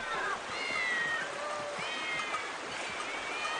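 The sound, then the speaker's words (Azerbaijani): Many cats meowing at a city temple in Egypt, with overlapping mews and wavering cries running through the whole stretch over a steady hiss. “Burada bu qədər pişik nə eləyir?”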